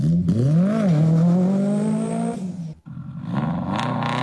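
A car engine revs hard as the driver sets off, a loud rising growl that holds a strained tone for a couple of seconds, drops out briefly, then picks up again.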